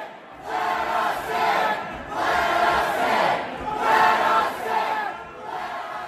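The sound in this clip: Protesters at a rally in Michigan shout together, a loud crowd roar that rises and falls in repeated swells of massed voices.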